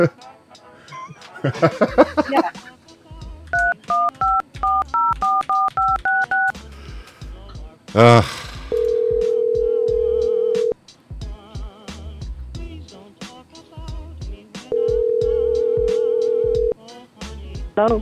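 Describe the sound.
Touch-tone telephone dialing for a call back to a customer. Talk at the start is followed by a rapid run of many keypad beeps, then two long, steady ringback tones separated by a quiet gap.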